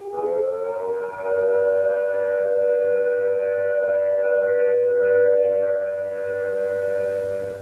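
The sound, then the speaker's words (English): A civil defense siren sounds the all-clear after a fallout warning: one loud, steady, unbroken tone with rich harmonics, held at an even pitch and volume for the whole clip, heard alone with no voices. “When the all clear sounds like this”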